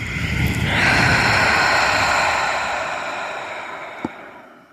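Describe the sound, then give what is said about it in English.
A deep, drawn-out exhale during a guided breathwork exercise, released after a full inhale: a loud, steady rush of breath noise that swells early and then slowly fades over several seconds, with no talk over it. “So go again, inhale. More. And out.”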